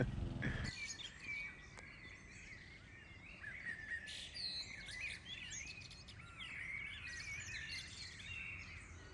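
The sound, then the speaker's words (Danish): Birds singing at 3:30 in the morning before dawn: many chirps, tweets and trills overlap throughout at a moderate level, with several birds calling against a soft, constant background hiss. “Nu begynder fuglene at synge. Og klokken er 3:30 om natten.”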